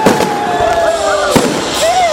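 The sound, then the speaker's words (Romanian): New Year fireworks in Timișoara greeting 2015, with a few sharp bursts and whistling tones over steady crowd noise and cheering. “În spectacolul focului de artificii, timișorenii au primit anul 2015 cu urale”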